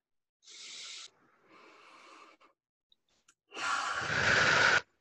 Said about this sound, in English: Can we take a deep breath together and celebrate?